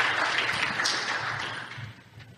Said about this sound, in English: please join me in giving Gary a warm welcome